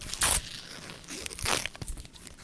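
Christmas gift wrapping paper tearing open close to the mic: a couple of loud, sharp rips with softer crinkling and rustling between them.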